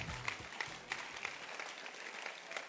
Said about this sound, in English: Oh, can you clap your hands?